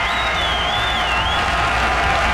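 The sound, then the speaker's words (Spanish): Audience applause to honour mothers and fathers on the world day of parents. Thick, even clapping runs steadily throughout, with a high whistle rising above it during the first half. “Así que aplausos.”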